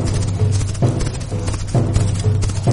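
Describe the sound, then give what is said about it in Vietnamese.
Galloping cavalry horses pound the ground, their hooves striking in heavy, dense, irregular thuds. The sound is loud and low, with no voices. “Mặt đất chấn động, tiếng vó ngựa dày đặc như nện vào lòng người.”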